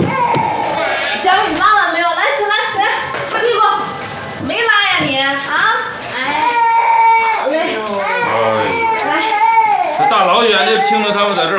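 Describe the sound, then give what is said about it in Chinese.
Small children crying in a family home after a whole morning of tears, with no fever or stomach trouble: loud, continuous wailing and sobbing with wavering, rising and falling pitch and only brief breaks for breath. “这大老远就听着他们在这儿哭，不知道的还以为你们这儿是托儿所呢。 都哭了一早上去了，也不知道哭什么。”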